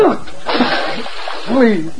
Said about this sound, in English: Oh, maybe some water will revive you.